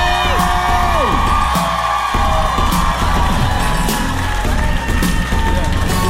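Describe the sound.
A crowd cheers and whoops for a talk show guest, a youth correspondent being introduced. The loud, continuous roar carries shrill falling whoops and shouts.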